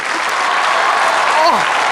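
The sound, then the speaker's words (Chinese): Audience applause during a comedic stage sketch, a loud, dense and steady clapping wash with a voice briefly rising above it near the end. “来来掌声和尖叫”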